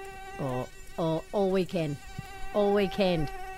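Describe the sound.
Mosquitoes buzz in a thin, steady, high-pitched whine that persists throughout, joined by louder wavering bursts that come and go.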